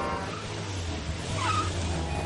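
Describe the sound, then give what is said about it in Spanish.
An SUV driving off a road in front of a bus in a thriller film scene. It gives a steady, low engine rumble and continuous road noise at an even level throughout. “El todoterreno sale de una carretera delante de un autobús.”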